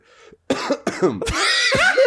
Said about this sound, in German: Räuspern mal. Wie macht man das?